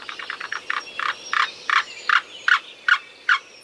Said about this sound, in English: And here's the black-billed cuckoo.